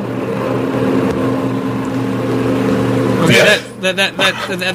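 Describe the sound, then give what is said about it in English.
A loud car from Savannah, Georgia: its engine drones steadily, then surges in a brief roaring burst, and a voice speaks afterward. “That's a car from Savannah, Georgia, I assume, for a dramatic emphasis.”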